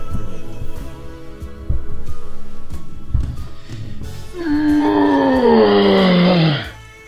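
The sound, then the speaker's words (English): A person groans while stretching after getting out of bed, a long, loud voiced groan whose pitch sinks at the end, following a few seconds of quieter low sounds. “All right, I'm gonna go with groan. Yeah, probably a groan, if anything. Yeah, groan. That was a groan.”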